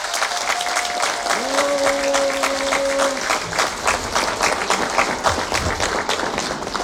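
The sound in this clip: Warm crowd applause welcoming Archbishop Mieczysław Mokrzycki, Metropolitan of Lviv, a loud, steady roar of many clapping hands that carries on evenly throughout, with a faint sustained tone briefly sounding over it.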